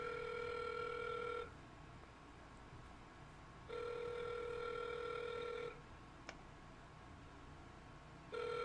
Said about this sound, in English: I'm calling now. I got my burner. They say they hide the number.